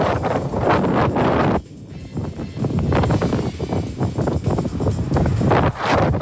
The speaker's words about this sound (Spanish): Este es el audio del video de Coyhaique, del viento.